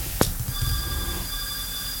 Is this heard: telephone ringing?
yes